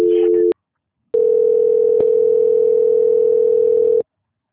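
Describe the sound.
A telephone dial tone sounds after a call drops during a transfer. A short steady tone is followed by a brief silence, then a long, unbroken tone at the same pitch that stops abruptly.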